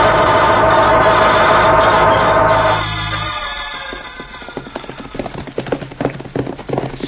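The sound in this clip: Horses galloping in an old western scene; a loud, sustained tonal sound fades after about three seconds, giving way to a rapid, irregular clatter of hoofbeats that continues to the end.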